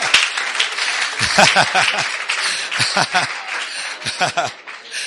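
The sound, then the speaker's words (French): Congregation applause for the French speakers at a church service, bursts of clapping mixed with chuckling and voices, rising and falling in loudness. “Acclame pour les francophones, acclame.”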